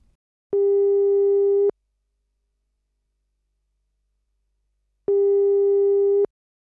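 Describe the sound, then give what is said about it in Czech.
Telephone ringback tones sound as a call is placed: two long, steady, mid-pitched tones, each about a second long, separated by a long silent gap. “Tak mu volám.”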